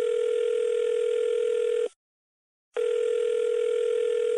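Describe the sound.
Telephone ringback tone of an unanswered call: a loud, steady electronic tone that cuts out for one short gap near the middle and then resumes. No voices are heard.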